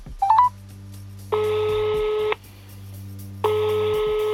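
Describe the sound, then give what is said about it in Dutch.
A telephone number is dialled as a quick run of a few short keypad beeps, followed by two long, steady ringing tones separated by a pause. “Ik ga hem proberen te bellen.”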